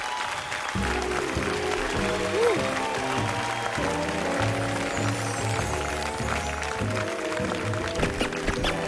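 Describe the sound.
Audience applause greets a singer walking onto a concert stage, a broad wash of clapping mixed with steady music that runs the whole length at a fairly even level.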